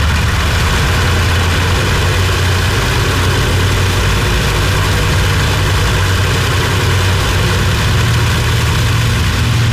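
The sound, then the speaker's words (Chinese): Heavy bomber engines loaded with fuel and bombs roar during takeoff from a carrier deck, a loud, steady, unbroken droning rumble that fills the whole ten seconds without clear rises or breaks. “装上燃油和炸弹后，笨重的飞机从甲板上摇摇晃晃地起飞了。”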